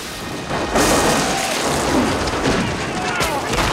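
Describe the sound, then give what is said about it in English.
Cannon blasts and gunfire roar across an American Civil War battlefield between Union and Confederate troops: a heavy booming blast, then sustained rumbling noise, and another sharp blast near the end. “while all around them their comrades in arms are felled by flying bullets and thrown into the air by cannon blasts.”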